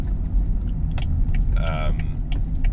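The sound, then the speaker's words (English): A car drives along a daily commute to and from work, its deep, steady road rumble filling the cabin throughout at a constant, loud level. “as you can hear, I'm driving, hence Driven to Sleep.”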